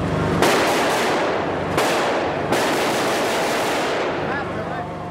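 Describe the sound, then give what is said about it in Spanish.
Gunfire rings out repeatedly during a crowded funeral procession through the streets of Jenin, with a few sharp cracks standing out from a dense, unbroken roar of noise that never lets up. “los disparos no dejan de sonar durante todo el tiempo.”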